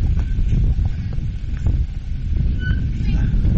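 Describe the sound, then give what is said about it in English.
Wind buffets the microphone at an amateur baseball game, a steady, loud low rumble that swells and eases without stopping. “Wind is really starting to kick up.”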